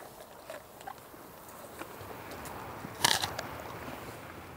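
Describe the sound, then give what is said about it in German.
German Angus cattle bite and chew stored orchard apples, giving many small wet crunches and crackles at an irregular pace, with one louder burst of crunching partway through. “Die Lageräpfel von ihrem Obsthof schmecken den Deutsch-Angus-Rindern offenbar richtig gut.”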